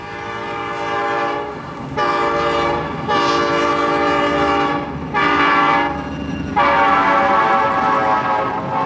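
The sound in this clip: A train runs on rails, the morning train to Kiev, with a steady low rumble and a few sustained horn-like tones that start and stop over it. There is no talk.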